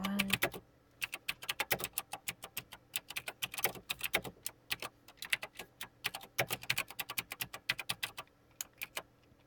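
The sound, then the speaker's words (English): Typing on a computer keyboard: many sharp key clicks in quick, irregular bursts with short pauses between them, fairly loud and alone with no talk. “I didn't because I just did the typing for effect.”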